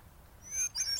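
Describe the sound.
Bird song from a hermit thrush in thickets late in the season: brief, faint, high whistled notes, with a thin sliding tone followed by a higher fluttering phrase over a low background rumble.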